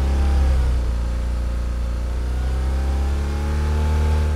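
A car engine is revved up and held at 4,500 rpm for a noise-level test, giving a loud, steady droning whine that holds its pitch, dips slightly in the middle, then swells again.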